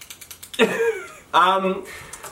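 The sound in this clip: A clicky pen snaps in a quick run of sharp, light clicks before people start talking, with the clicking fading under the voices.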